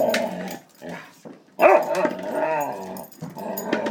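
A dog barks on a fireworks night, a few sharp, loud barks mixed with gruff growling, broken by short pauses.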